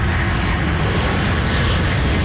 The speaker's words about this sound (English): Plane carrying over 100 firefighters from Mexico touched down in Abbotsford today.